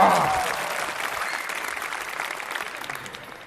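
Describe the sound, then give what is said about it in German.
An audience applauds to score a contestant and holds the clapping on request. A brief voice sounds at the start, then dense, steady applause tapers off slightly. “10 Punkte Applaus für Yusef. Halten. Ja, ihr müsst auch halten, den Applaus.”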